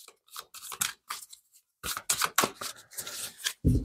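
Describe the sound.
Tarot cards are shuffled by hand in many crisp, papery bursts, with uneven rhythm and short pauses between them.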